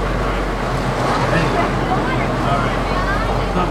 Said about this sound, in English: Right now we are on the covered wagon safari ride, or we are on safari off-road adventure. It's a big car of about maybe 15-20 people.